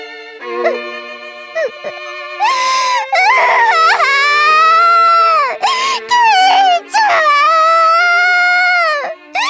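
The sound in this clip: A girl crying loudly, with long wailing sobs whose pitch slides and wavers, broken by a few short pauses for breath. No other voices are heard.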